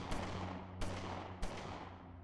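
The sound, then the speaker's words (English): Gunshots in a dramatized scene where a Smith & Wesson revolver goes off accidentally: three sharp, booming reports spaced under a second apart, each with a long decaying tail, fairly faint overall. “According to reports, Oliver Bentley was examining a Smith & Wesson revolver when the gun accidentally went off, shooting his older brother in the head”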